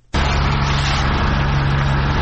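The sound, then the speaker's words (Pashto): A municipal vehicle's engine runs steadily in a street in Tarinkot, where workers are removing security barriers. The loud, constant motor drone has a low hum beneath it and no break. “دا د ترینکوټ شاروالۍ موټر او کارکونکي دي چې د طالبانو په غوښتنه د اروزګان ولایت په مرکز ترینکوټ ښار کې د ولایت مقام مخې ته هغه موانع لري کوي”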